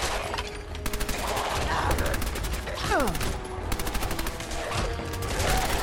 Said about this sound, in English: Or a full auto gun. Doesn't have to be a pistol. A submachine gun. Here we are. 147 rounds of 45.